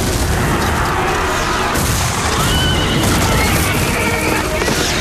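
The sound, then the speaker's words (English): Horses whinny among mounted samurai riding with torches while a blast hits behind them, shrill neighing tangled with heavy booming cannon fire in a loud, continuous roar. “Mounted samurai ride forth with torches. As the soldiers resume fire, a blast hits to the rear of the samurai, throwing one man upward.”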